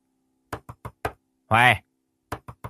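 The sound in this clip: A woman pounds on the door of a room in a house: seven sharp, loud knocks in a burst of four and then a burst of three. A brief voiced call sounds between the two bursts.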